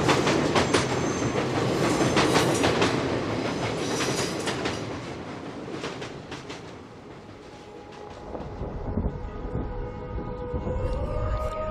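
A train pulls into a terminal station with a loud, steady rhythmic clickety-clack of wheels on rails. Thin tonal wheel squeals appear toward the end.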